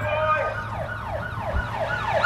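A wailing police siren in a video game, its pitch sweeping up and down in rapid repeated cycles, loud and continuous over a steady low hum.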